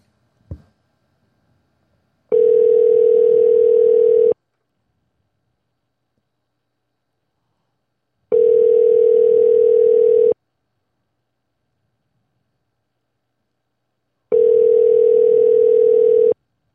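Telephone line tone heard while dialing a number: a brief click, then three steady, loud two-second tones separated by about four seconds of silence.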